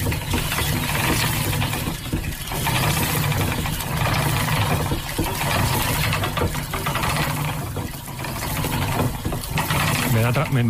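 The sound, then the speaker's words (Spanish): A spinning wheel turning, like the one in Velázquez's painting Las hilanderas: a continuous rattling, clicking mechanical whir with a recurring rhythmic pulse that briefly dips and resumes several times. “esta pintura de Velázquez, en Las hilanderas, la rueca está trabajando, está sonando y tiene un sonido que sonaría así.”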